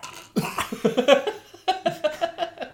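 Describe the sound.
A person's voice imitates a creature's cry as dry retching: two quick series of short, rough, guttural heaves, fairly faint.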